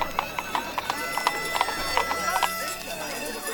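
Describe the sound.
Hooves clop as donkeys pull a cart, many even, rhythmic clip-clops at a steady pace over a constant low rumble.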